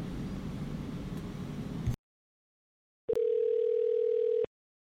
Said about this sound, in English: Let's give him a call back.